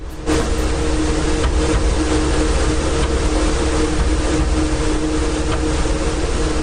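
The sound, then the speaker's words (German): A server rack with poorly damped hard drives gives off a loud, constant low rumble and hum. A broad whooshing noise and faint irregular knocks sit on top, unchanging for several seconds. “Das ist mein Server-Rack mit etwas schlecht gedämpften Festplatten. Die machen immer so Holpergeräusche.”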